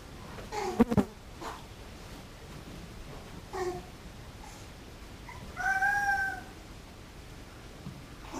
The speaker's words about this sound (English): Now in this space, babies make noises.